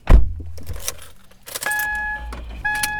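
A car is heard while driving around the suburbs: a heavy thump at the start, then jangling keys and low rumble, with a steady electronic tone sounding in two stretches near the end.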